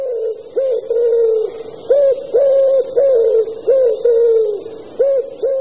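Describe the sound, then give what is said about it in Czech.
A male common wood pigeon coos in repeated low, hollow hoots grouped into rhythmic phrases, loud and clear with brief pauses between them and a faint steady high hiss behind. “Takže i ve městech můžete slyšet roztoužené houkání samce hřivnáče.”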